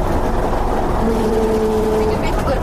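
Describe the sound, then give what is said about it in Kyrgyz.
A wheel loader's engine runs steadily while clearing snow from a mountain road, a constant low rumble with a faint tonal whine, under talk. “Астындагы погрузчик бул.”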